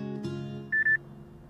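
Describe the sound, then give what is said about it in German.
An alarm clock beeps early in the morning in a parked car at a motorway rest area, a quick burst of bright, high-pitched electronic beeps that stands out against a quiet, low background. “Um 4:20 Uhr geht der Wecker.”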